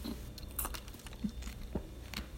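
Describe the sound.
Biting and chewing on frozen almond milk: soft, irregular crunches and mouth sounds, faint overall, with a few slightly sharper bites standing out.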